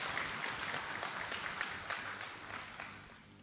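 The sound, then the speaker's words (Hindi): An audience applauds to welcome a speaker at a gathering. The clapping is a dense, steady patter of many hands, fairly faint, and it holds for about three seconds before easing off slightly at the end. “हम सभी करतल ध्वनि के साथ भाई साहब का स्वागत करते हैं।”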